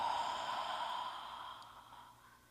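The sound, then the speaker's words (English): A deep breath taken during a guided prayer at a gratitude service: one long, airy breath that holds steady, then gradually fades away, with no talking over it. “take one more breath with me. Breathe in and breathe it out.”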